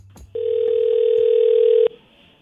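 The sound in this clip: A telephone dial tone sounds while a call is dialed out: one steady, loud, unbroken electronic tone that holds for about a second and a half and then cuts off abruptly.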